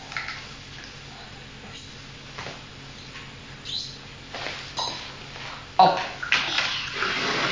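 Bathwater splashes and swishes as a child's hair is washed in the tub. Soft, irregular sloshing continues throughout and swells into a few louder splashes toward the end.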